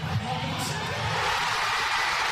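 Thousands of football fans in central Oslo cheer after Norway's late goal against Brazil. A broad, sustained crowd roar holds steady throughout.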